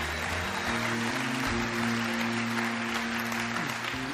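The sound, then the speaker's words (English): A church audience applauds in a dense, even wash of clapping that holds steady throughout, with faint sustained tones underneath. “can we put our hands together and welcome people to God's family today?”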